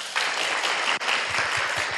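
Applause rings out at a Buddhist dharma hall, a dense, steady clapping that briefly dips midway before resuming, with a few soft low thumps near the end.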